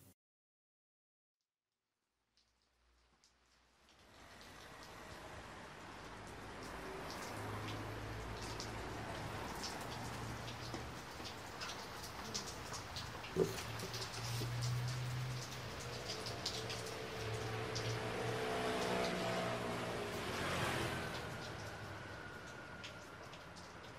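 Steady rain on a rainy day, with a slippery road: after a few seconds of near silence a continuous broad hiss of falling rain fades in and holds at a fairly even level, with occasional brief louder patters.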